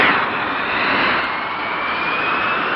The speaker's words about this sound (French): Dans ce Mirage 3C, le pilote d'essai Jacqueline Auriol